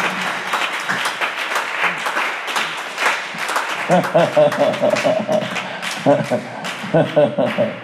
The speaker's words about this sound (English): The way you are clapping, it is very,